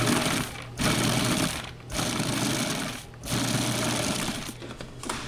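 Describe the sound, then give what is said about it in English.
A food processor's motor and blade grind loudly in pulses, about four bursts of dense whirring, rattling noise separated by brief dips in sound. “All right, I'm going to start grinding this up, pulsing it.”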